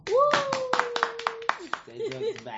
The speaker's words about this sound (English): First of all, let's clap for